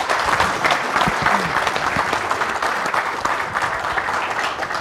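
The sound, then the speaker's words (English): Warm audience applause welcoming a football player as an honored guest at a morning event, with sustained, dense clapping at a steady, loud level that fades slightly toward the end. “Give a warm welcome to Trey Burton.”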